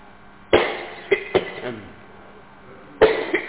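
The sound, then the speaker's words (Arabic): A person coughs in two short clusters: a few sharp, hoarse bursts early on, then a quiet gap, then another few near the end. “اول ما شريف بيسال انا بيجيني كحه”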